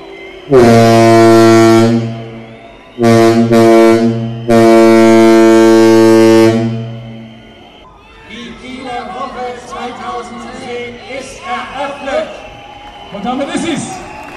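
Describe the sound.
A ship's typhon horn sounds to cast off in Kiel, giving three loud, deep, steady blasts, the middle one shorter. Crowd noise and voices follow once the horn stops.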